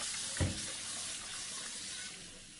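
Running tap water as surgical instruments are washed before sterilization: a steady rushing flow with a single brief knock early on.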